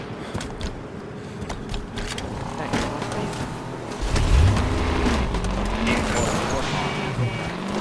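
A vehicle drives in the video game Halo 5: Guardians, its engine droning steadily with a wavering pitch that swells louder partway through, over a dense layer of game noise.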